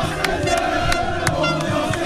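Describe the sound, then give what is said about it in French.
Rugby supporters from Creuse cheer and shout as they invade the pitch after the final whistle in the rain. The crowd makes a dense, continuous roar with no clear breaks. “Et puis l'arbitre délivre les plus de 1500 creusois. Les supporters exultent et envahissent la pelouse.”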